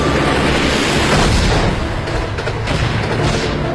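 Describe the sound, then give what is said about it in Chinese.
Rumbling, roaring explosions from enemy aircraft bombing a train carrying cultural relics, a dense, loud, continuous wash of low booms and crackling noise with no clear gaps. “运送文物的火车刚到郑州，就遭遇了敌机的轰炸。”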